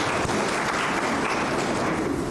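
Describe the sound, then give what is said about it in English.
Audience applause for a regional sports facilities initiative, a steady, dense wash of clapping that holds an even loudness throughout without voices. “Can we give a round of applause for the initiative?”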